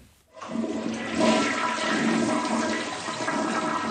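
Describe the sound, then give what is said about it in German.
A toilet flushes with a loud rush of water that starts abruptly after a moment of quiet, then swirls on steadily with no voices. “Dieses Geräusch einer Toilettenspülung ist in Doras Haus nicht mehr zu hören.”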